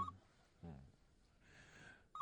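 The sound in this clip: A telephone rings, sounding as faint, short electronic tones at the start and again at the end. Quiet, breathy noise fills the pause between the rings.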